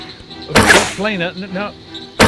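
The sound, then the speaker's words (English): Two arrows loosed from a bow, each a sharp, loud whooshing burst, one early and one at the very end, with a voice briefly heard between them. “Flayna loosed two arrows at the drooling figure. The shafts flew straight and true, sinking their points into the thing's shoulder.”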